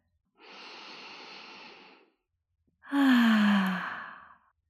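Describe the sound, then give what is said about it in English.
A deep, full breath during a guided relaxation: a slow, airy inhale, a short pause, then a louder exhale that carries a low voiced sigh and fades out at the end. “Take a deep, full breath.”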